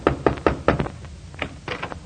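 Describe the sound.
Knocking on the door of the Middletown Little Theater League: four firm, evenly spaced raps, a short pause, then a few more knocks, heard alone without voices.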